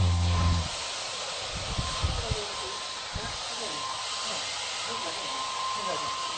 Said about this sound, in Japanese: あとドライヤーとかいきますか。 はい、 ドライヤーの風が当たる音なんですけど、ちょっと不思議と耳があったかくなったりするんですよ